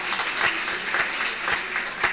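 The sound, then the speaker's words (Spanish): Applause from a church audience welcoming the Voz del Espíritu Santo community from Mackville: a steady patter of clapping with a few sharper accents, at moderate level and without voices. “Os un aplauso aquí,”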